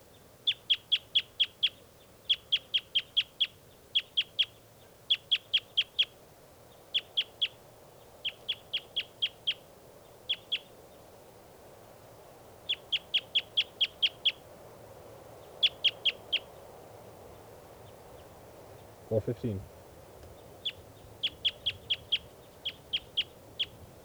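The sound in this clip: Bird calls: rapid bursts of several sharp, high chirps, repeated in many evenly spaced groups over a faint, steady background hiss.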